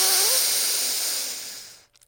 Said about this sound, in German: Und rechts ausatmen. Und rechts einatmen.